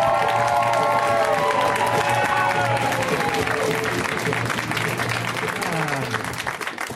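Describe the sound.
Loud audience applause and cheering welcome comedian Nate Fernald to the stage, a dense sustained roar of clapping with shouted whoops that thins out toward the end.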